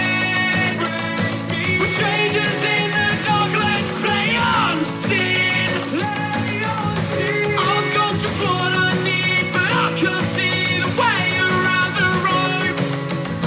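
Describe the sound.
A song from a musician's latest EP plays, with sung vocals over a dense, steady accompaniment at an even, full loudness throughout.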